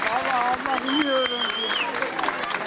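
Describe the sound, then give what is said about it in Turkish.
Families clap to greet students coming out of a two-hour-45-minute exam, some of them holding flowers. Scattered, uneven applause continues under several people talking and calling out. “İki saat 45 dakika süren sınavın sonunda aileleri öğrencileri alkışlarla karşıladı.”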